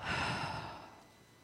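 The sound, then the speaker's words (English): A person breathes out slowly and audibly in a single soft, airy breath that fades away toward silence. “Inhale and exhale.”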